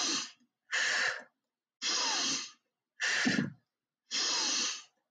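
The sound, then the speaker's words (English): Forceful breathing, drawn in through the nose and pushed out through the mouth, in five strong, evenly spaced breath bursts of similar loudness with short silent gaps and no talking. “if you were to take 3 forceful breaths and I'll go in my nose, out my mouth”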